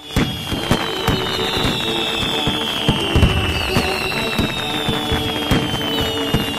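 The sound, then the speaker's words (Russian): Fireworks burst over a concert audience in many sharp cracks and pops, while a high whistle glides slowly downward above them. “Поль на своем возвышении включил функцию «фейерверк», и огненные взрывы вспыхнули над головами.”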